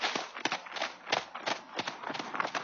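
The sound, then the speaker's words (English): Hoofbeats of several horses trotting into a pasture under an escort of officers: a steady, uneven run of many soft thuds at a brisk rhythm, fairly faint, with no talking. “Surrounded by the officers, the three messengers trotted into the pasture ahead.”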